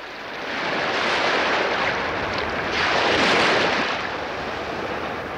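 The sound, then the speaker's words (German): Sea surf breaks at Helgoland island among dredgers and buoys during its 1950s reconstruction. The loud, hissing wash swells twice, with the second surge strongest, then eases. “Brandung zwischen Baggern und Bojen.”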